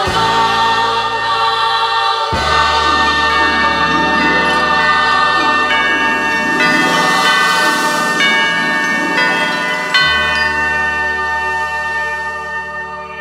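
Bells chime from a clock on an old tower, ringing a series of bright, overlapping tones over musical accompaniment with sustained low notes. The chimes fade gradually near the end.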